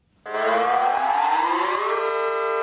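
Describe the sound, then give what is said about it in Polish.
An air-raid alarm siren sounds in Lublin after the city bugle call from the town hall balcony at a noon funeral ceremony. It starts abruptly as a loud wail, climbs slowly in pitch, then holds a steady tone. “z balkonu ratusza został odegrany hejnał miejski, po którym włączono syreny alarmowe.”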